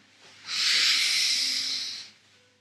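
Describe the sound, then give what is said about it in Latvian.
A deep breath drawn in through the nose during a guided meditation: a single steady, airy hiss lasting about one and a half seconds. It rises quickly, holds level, then tapers off, with no talking. “Vēl viena dziļa ielpa.”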